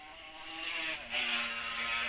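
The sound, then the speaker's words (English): High-revving engine whine of a racing motorcycle leaning into a medium-fast left-hand bend during a road race, steady buzzing harmonics swelling gradually louder, with a brief dip in level midway before the engine note picks up again, no voices. “Swings the bike over to take this medium-fast left-hander and comes into view.”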